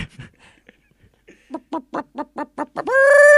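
Chicken clucking sound effect: a few faint sounds at the start, then a quick, evenly spaced run of loud clucks, ending in a strong, sustained squawk that holds to the end.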